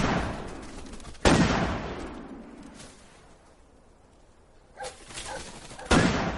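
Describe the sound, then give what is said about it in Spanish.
Shotgun blasts ring out during a pheasant hunt as hunters fire at birds. There are two loud, sharp reports, each trailing off in a long decay, with a softer crack between them. “Disparan a aves.”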